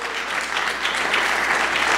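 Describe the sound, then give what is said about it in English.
Audience applause fills the stretch with a continuous crackle of many clapping hands, holding steady and swelling slightly louder toward the end, with no talk over it. “That deserves a round of applause.”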